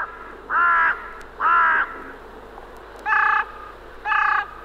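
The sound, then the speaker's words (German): A hooded crow or carrion crow gives four loud, harsh caws in two pairs, with short gaps between the calls of each pair and a longer pause between the pairs. “die östlich der Elbe heimische Nebelkrähe mit ihrem grau-schwarzen Gefieder und die westlich der Elbe heimische Rabenkrähe mit ihrem schwarzen Gefieder.”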